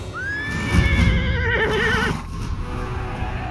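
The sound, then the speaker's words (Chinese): A horse neighs in one long, loud whinny that climbs and then wavers for about two seconds, with low thudding hoof noise underneath throughout. “接着，震耳欲聋的马蹄声，人们御马时发出的豪迈的呼喊声，马儿奔跑，仰头鸣叫，那声音振奋人心又令人恐惧。”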